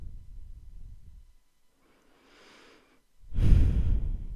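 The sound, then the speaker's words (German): A deep breath in and out: a soft, airy inhale, a pause with a faint breath, then a louder, longer breathy exhale at the end. “Noch einmal tief ein- und ausatmen.”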